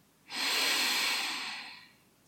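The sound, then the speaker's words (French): A single deep breath drawn in slowly through the nose during a guided relaxation exercise, a soft, airy hiss that swells quickly, holds, then tapers over about two seconds, with nothing else around it. “Encore une fois, inspirez profondément.”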